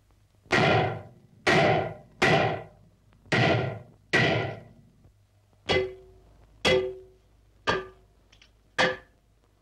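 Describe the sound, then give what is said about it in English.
Heavy hammering rings out aboard a ship, a slow, uneven run of loud single blows separated by silence, the later strikes sharper with a ringing metallic edge. “Tell him to stop the hammering or muffle it somehow.”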